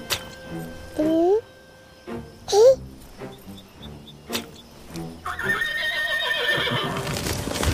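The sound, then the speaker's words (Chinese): A horse neighs with two rising, high-pitched whinnies, accompanied by hoof clip-clops and other clatter, and ends in a denser, louder wash of sound. “你看那马儿多可怜，所以我们不应该伤害他们。”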